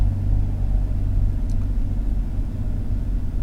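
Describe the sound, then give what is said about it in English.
Steady low engine rumble from vehicles running at a truck stop in Valley Grove, West Virginia, a continuous idling drone that holds at an even loudness throughout with no voices. “This truck stop that I'm at the TA in Valley Grove, West Virginia. This place fills up quick, so I had to get a reserve spot.”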